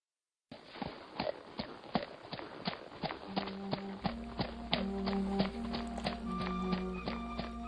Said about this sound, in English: On horseback, Nath and company rode from the settlement and beyond the farmlands.